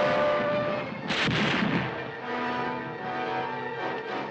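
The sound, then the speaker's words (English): A volley of rifle fire from multiple rifles in a drama scene: dense, rumbling blasts with a sharper burst near the middle, sustained and loud throughout with no voices. “Blasted by multiple rifles”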